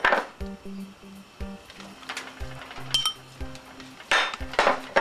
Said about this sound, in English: Give it a good stir. You have to play with it a little.